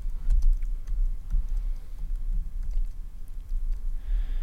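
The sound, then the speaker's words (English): Rapid typing on a computer keyboard: many quick, light key clicks in an irregular run over a low, steady rumble, with no voices. “Oh, come on. Suck at typing.”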